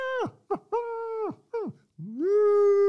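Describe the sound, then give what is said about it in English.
A male howl imitated on a handheld predator call: a few short, falling yelps, then a long howl that rises and holds steady. The calls are loud, tonal and strongly harmonic, with no voices. “And then I throw in more of a male howl.”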